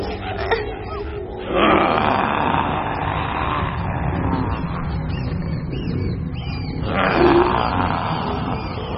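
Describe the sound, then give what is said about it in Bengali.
A panther roars in a jungle: two loud, rough, swelling roars, one early and one near the end, over a constant rumbling background. “আরে, এদের বাঘিরার আওয়াজ! ওরা আসছে!”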